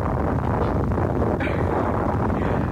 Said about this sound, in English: I thought we could use one of these, an atomic bomb.